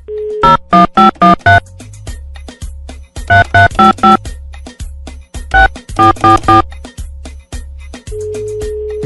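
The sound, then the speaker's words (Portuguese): An outgoing phone call to a motel rings out, with a steady low ringback tone briefly at the start and again near the end, and loud bursts of rhythmic musical chords in between. “Deixa eu ligar aqui, vai.”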